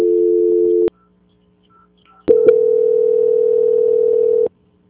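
Steady telephone line tones play during a call transfer. A short tone lasts under a second, then a silent pause, then a longer identical tone of about two seconds, each starting and stopping with a click.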